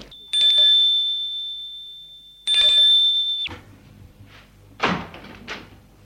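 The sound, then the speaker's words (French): A doorbell at a flat's door rings twice, each a bright, sustained tone that slowly decays, followed by the clunk of the door opening and a few dull thuds. “La porte s'est ouverte, c'est le détective.”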